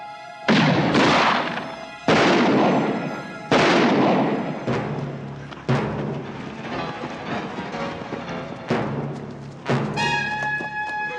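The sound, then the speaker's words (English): Gunfire comes from two directions in an old-west shootout as a family flees: many loud, sharp shots at irregular intervals, each with a long ringing decay. “under fire from two directions, the Grahams flee.”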